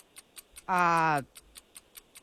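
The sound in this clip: A quiz timer clock ticking through a sixty-second round, crisp, even ticks a few times per second, broken once by a short, louder harmonic burst before the faint ticking continues.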